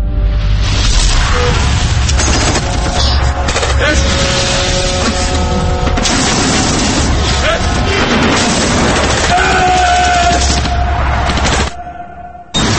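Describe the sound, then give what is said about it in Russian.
Heavy gunfire and booming blasts from a war film featuring a tank, a dense, loud, continuous barrage of shots and explosions that runs almost unbroken before briefly dropping away near the end. “И звук выстрела. Звук, падающий от стерильной снарядной гильзы. Скрежет металла, скрежет гусениц.”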